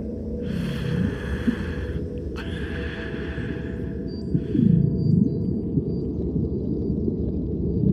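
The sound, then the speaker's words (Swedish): A diver breathing underwater in darkness: two long hissing breaths and a shorter third one pass over a steady low rumble, with soft throaty sounds between them. “Det enda du hör är dina egna andetag.”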